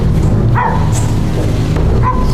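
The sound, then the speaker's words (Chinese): A dog barks a few sharp times over a constant low background rumble. “哪儿来的狗叫声？”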